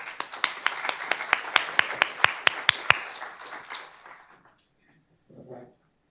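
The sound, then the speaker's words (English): An audience applauds to welcome the panelists at a panel discussion. Steady, fairly loud clapping carries for about three seconds, then fades out, and a brief voice follows. “Let's give each of our panelists a warm welcome”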